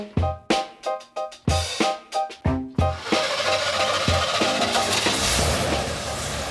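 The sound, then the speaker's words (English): Old 1979 GMC RV engine firing up: about three seconds of rhythmic cranking chugs, then it catches into a loud, continuous running roar that settles a little quieter. “I'm Mookie, and that's the sound of my old 1979 GMC RV, affectionately named Lily, firing up to take me deep into the Great Canadian Shield.”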